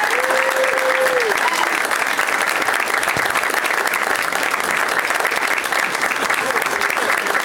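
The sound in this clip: Audience applause welcoming guests onto a live show stage: loud, dense clapping that holds at an even level from start to finish.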